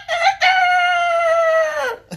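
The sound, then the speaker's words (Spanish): A rooster crows once in a long, loud, clear call. A short opening note leads into a sustained, buzzy crow that holds steady and drops off at the end. “Bueno, así le hacen los gallos.”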